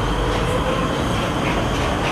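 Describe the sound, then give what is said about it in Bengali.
A metro train pulling out at Tollygunge makes a loud, continuous rumbling roar that stays steady from start to end, with no voices. “মেট্রোটা শব্দ করে বেরিয়ে গেল।”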